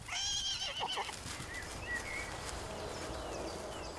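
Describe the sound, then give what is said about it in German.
A horse whinnies loudly at the start, from a mare and her newborn colt foal on a summer pasture; the high, wavering neigh lasts about a second, followed by a quieter outdoor background. “Auch Tolle hat mittlerweile ein Hengstfohlen zur Welt gebracht.”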